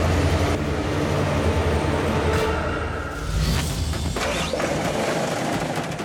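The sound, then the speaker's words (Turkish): Train running on rails, a dense, continuous rumble with metallic clatter and rattling that stays loud throughout, with no voices. “Tren hala o tarafa geliyor.”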